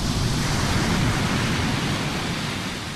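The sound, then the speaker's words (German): Ocean waves produce a continuous broad roaring wash of surf, dense and even throughout, easing slightly toward the end, with no voices. “Wellen gibt es fast überall. In manchen Regionen der Erde ist das Meer das ganze Jahr in Bewegung.”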